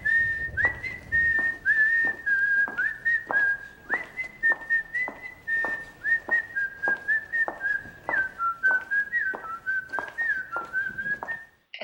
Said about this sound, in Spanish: No lo sé, ha silbado alguien.